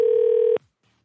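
A telephone tone sounds while a call is placed, a steady electronic tone with faint pulsing that cuts off abruptly after about half a second, followed by near silence.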